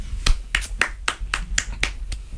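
A single person applauds with eight slow, evenly spaced claps, each one a crisp, sharp smack at moderate loudness.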